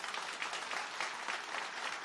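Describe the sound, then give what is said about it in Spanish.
Audience applause for a pianist at a church celebration with priests present: a short burst of dense, lively clapping from many hands, steady and fairly loud. “Carlitos Ocaña, le damos un aplauso.”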